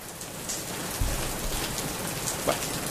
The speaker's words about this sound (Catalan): Espera, no estiguis tan segura. Podem fer que plogui una mica,